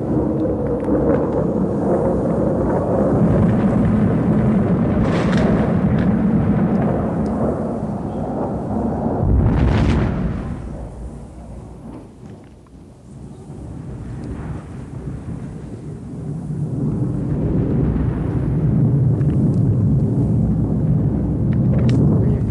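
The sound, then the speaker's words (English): Distant bombs exploding during a heavy night bombing raid, heard as a continuous low, rumbling roar mixed with wind-like noise. The roar swells into one stronger burst midway, dips, then builds again. “I can hear some bombs in the distance. The sky is lighting up, so something's going on somewhere.”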